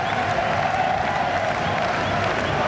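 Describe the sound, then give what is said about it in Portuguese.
A football crowd roars and cheers at the Caldeirão stadium in Funchal during a Marítimo match against Porto, a dense, steady wall of noise that stays loud for the whole stretch. “E ouçam a festa no Caldeirão no Funchal.”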